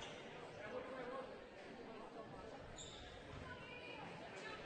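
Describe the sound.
A basketball is dribbled a few times before a free throw during a game, dull bounces half-buried under crowd chatter and a commentator's voice.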